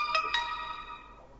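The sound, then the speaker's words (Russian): A short electronic tone on an outgoing phone call: two quick bright pulses that ring on and fade away, faint and with no other sound. “Звонок пошел.”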